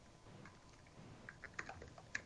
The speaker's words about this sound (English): Why is he typing?